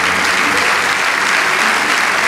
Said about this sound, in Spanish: Vamos, dale ese aplauso al Rey de Reyes.